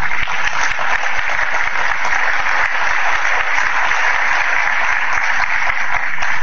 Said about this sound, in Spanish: se oyen la diferencia en aplausos, la fuerza de los aplausos cuando está López Obrador